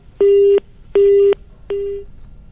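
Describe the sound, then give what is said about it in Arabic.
Busy tone on a telephone line after a call drops: three short, steady mid-pitched beeps at an even pace, the last one trailing off more faintly. “كأن الهاتف بينه وبينك انقطع”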